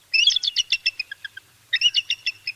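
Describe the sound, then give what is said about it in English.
The typical call of a bald eagle: a loud series of thin, high, rapid chattering chirps that fades toward its end, then a pause and a second rapid burst of piping notes. “In reality, the typical call of a bald eagle sounds quite different. It sounds like this.”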